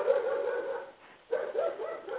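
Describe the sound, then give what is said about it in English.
A dog that is left alone all the time barks a few times in quick succession, with loud, rough, tonal barks separated by a brief quiet gap in the middle. “It's not a real bad dog, but it's alone all the time, and that's why it's barking at anything”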